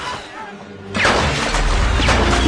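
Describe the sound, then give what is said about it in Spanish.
A sinking ship's forward funnel collapses and crashes down onto people swimming in the water after its support cables snap. A low, quiet rumble gives way to a sudden loud crash that continues as a heavy, sustained roar. “La chimenea de proa se desploma hacia adelante, aplastando a Fabricio”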